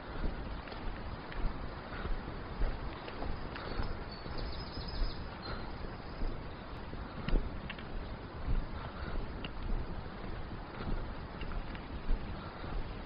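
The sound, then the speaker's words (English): Strong wind on a hill walk near Bardsey on the Leeds Country Way buffets the microphone in a continuous gusty roar, with a heavy low rumble that swells and eases in waves throughout. “It's very pleasant now, the wind's still strong, but the sun's come out.”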